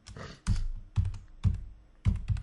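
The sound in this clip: Typing on a computer keyboard: short clusters of crisp keystroke clicks and soft thunks come in an irregular rhythm, with brief pauses between bursts and no talking.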